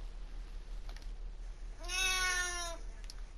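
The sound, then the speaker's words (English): A house cat gives a single drawn-out meow, faint and over a low steady hum, with quiet stretches before and after. “So that was the sound of my cat meowing.”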